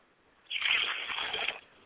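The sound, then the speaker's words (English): Liquid poured out as a libation to the east during a ceremonial invocation, a single faint splashing stream of about a second that begins abruptly and then trails off into quiet. “I pour libations to the east, and I say, Ashe.”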